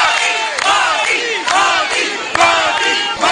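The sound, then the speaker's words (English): Crowd of the Indian diaspora cheering and chanting to welcome Prime Minister Modi at his hotel in Jakarta, loud rhythmic shouts from many voices in repeated waves. “Prime Minister Modi received an enthusiastic welcome from the Indian diaspora upon his arrival at the hotel in Jakarta.”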